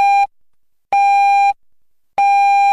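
Three loud electronic beeps of the hourly time signal on Rádio Covilhã at 10 p.m., clean mid-pitched tones separated by short silences, the first brief and the next two longer.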